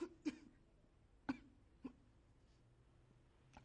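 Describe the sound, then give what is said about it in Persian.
Quiet, short coughs from a man with a lingering cough, a few separate bursts spaced apart with near silence between them. “شما هنوز هم نتونستین سرفتون رو درمون کنی؟”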